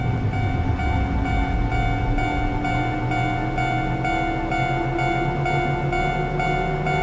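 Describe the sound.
A train pulls away from a station with a loud, continuous rumble and a motor whine that climbs gradually in pitch as it gains speed, with a faint, regular ticking throughout.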